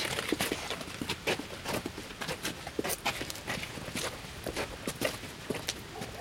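Quick footsteps hurry through the dark at night, a rapid, fairly regular run of crisp steps that continues throughout, with no voices.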